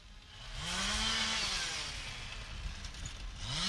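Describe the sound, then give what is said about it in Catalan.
Chainsaws run as workers cut trees by a roadside during urgent work, a steady high engine whine that revs up and eases back a few times. “Això que sentiu de fons són motoserres. Uns operaris estan treballant a peu de carretera per tallar els arbres.”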